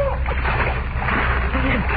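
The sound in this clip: Footsteps splashing through water and mud, heard as a continuous wet sloshing and churning that is fairly loud and steady, with no clearly separated steps.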